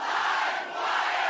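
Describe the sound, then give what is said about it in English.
A live audience cheers at Mississippi Studios in Portland, Oregon: a brief, steady burst of crowd roar and shouting that dips slightly midway and then swells again. “Recorded in front of a live audience at Mississippi Studios in Portland, Oregon, it's LiveWire!”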